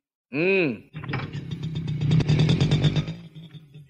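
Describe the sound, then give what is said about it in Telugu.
An auto rickshaw approaches: a short, wavering tonal honk, then a rattling engine with a steady low hum that grows louder for about two seconds before it cuts off. “ఏదో auto ఇటే వస్తున్నట్టుంది”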